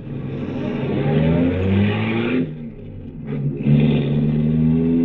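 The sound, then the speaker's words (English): A car engine droning as a newly bought car is driven, a low, steady harmonic hum that dips briefly and then climbs back up as the car pulls on. “Impressive machine, this. I love it, but I'm really not used to it yet. I just got it last week. You drive it very well.”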